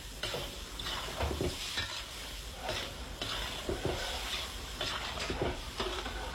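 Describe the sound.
Spices brown in a pan as they are stirred: a soft, steady sizzle runs throughout, broken by repeated sharper scraping strokes of stirring, with no voices.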